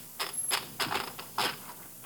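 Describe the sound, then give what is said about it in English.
Typewriter keys clacking as someone retypes the same line. A few short, sharp bursts of mechanical clicks come in uneven clusters with pauses between them, fairly faint throughout. “You are typing the same phrase.”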